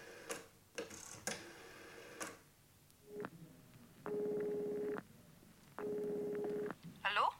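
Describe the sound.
A telephone number is dialed, with a few clicks and ticks followed by two long, even buzzing tones separated by a short pause, all faint and quiet.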